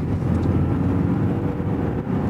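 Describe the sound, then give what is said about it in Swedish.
A car engine being revved lightly, a steady, dense low rumble with a slight roar, loud and continuous throughout. “Han gasar lite.”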